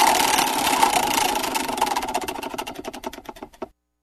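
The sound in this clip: A spinning prize wheel for picking professional football talk topics gives a rapid run of clicking ticks that gradually slow and spread apart before cutting off abruptly.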